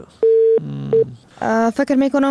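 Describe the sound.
A phone line tone sounds after a caller's call is cut off: a steady, loud beep, a brief gap, then a shorter beep, after which people talk.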